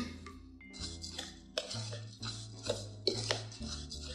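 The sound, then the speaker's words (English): A spoon clinks and scrapes in a bowl as breadcrumbs, cheese, fennel and orange zest are blended for a winter vegetable crumble. Soft, uneven knocks and chinks repeat at a quiet level. “what I'm mainly looking for is blending all of these ingredients together just before I top them off with the olive oil.”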